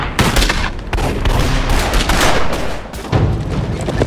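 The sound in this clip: Gunshots in a street shootout in a Western town: a dense run of many loud cracks and booming reports in rapid bursts, with a brief lull before a fresh volley near the end.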